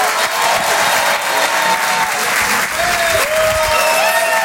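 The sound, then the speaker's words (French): An audience applauds at a French comedy-and-song show as a singer is called to the stage. Dense, loud clapping with crowd noise runs steadily from start to finish. “Je vous demande de faire un maximum de bruit, s'il vous plaît, pour Laurie Perret.”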